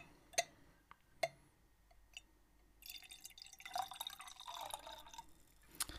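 Port wine poured to fill a glass: two faint drips or clinks come first, then a steady rushing pour lasts about three seconds and ends in a brief bright splash.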